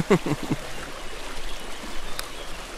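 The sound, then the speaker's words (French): The River Vienne flows past a fine-sand bathing beach with a steady, soft rushing wash of water. A voice is heard briefly at the start. “Et c'est aussi là le spot de baignade. C'est ça, exactement. Donc c'est là notre plage. De sable fin.”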